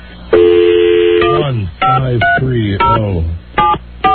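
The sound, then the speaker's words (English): Touch-tone beeps of a telephone number being dialed: a long steady tone followed by several short, sharp beeps, with a voice talking between and around them. “Please check the number and dial again. Of course it can. Let me try it again.”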